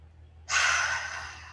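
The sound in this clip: A single deep breath starts abruptly as a loud, airy rush. It holds for about a second and slowly eases off, heard alone with no talk.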